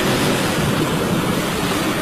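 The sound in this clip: Ocean surf plays as a sound effect: a loud, steady hiss of breaking waves that stays dense and unbroken for the whole stretch, with no voices.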